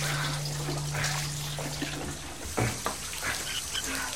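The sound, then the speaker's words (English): Water running and spilling from an overflowing toilet bowl, a steady broad wash with a few faint knocks near the end. “He finds the toilet bowl overflowing. He picks up a plunger and tries to fix it, then leans down and shuts off the water line.”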